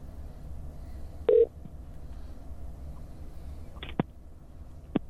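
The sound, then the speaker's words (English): Telephone dialing tones as a call is placed: a few short, sharp beeps separated by pauses, with a quiet background hiss between them. “We got a call. Call's happening.”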